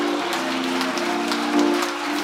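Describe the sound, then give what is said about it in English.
An audience applauds in praise during a church service. Steady clapping runs under a sustained low held tone, with a brief swell in loudness near the end. “Clap of praise this morning. Because he is indeed worthy to be praised.”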